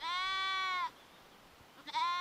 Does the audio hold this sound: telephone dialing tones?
no